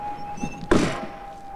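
A truck cab door swings shut with a single solid thunk that dies away quickly over a steady, faint tonal hum.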